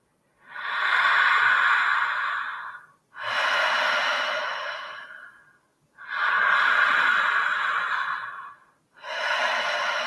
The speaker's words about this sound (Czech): Zpomalujeme, zpomalujeme nádech, zpomalujeme výdech.